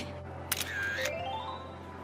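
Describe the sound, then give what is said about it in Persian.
In a video game, a camera takes a photo with one crisp shutter click, followed by a short, rising electronic tone over a faint steady hum. “خیلی وقت از این عکس نگرفته بودم، یکم زیادی هیجان زدم.”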